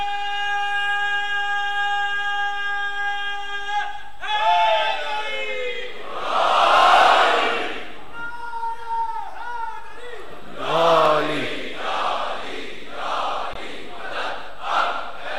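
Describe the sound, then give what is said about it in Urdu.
A religious slogan is raised at a Muharram majlis. A long, drawn-out leading call by one voice is followed by a few loud collective shouts from the gathered crowd, which swell and fade in turn. “ایک Najaf رسا نعرہ لگاتے ہیں”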